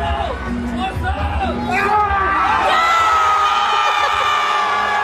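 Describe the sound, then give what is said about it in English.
Loud cheering fills an event crowd in Las Vegas, with whoops, yells and shouting voices layered into a dense, continuous roar that stays strong throughout. “I mean, that sounds like a football stadium. Yeah, it sounds like y'all are at a full-on game happening there.”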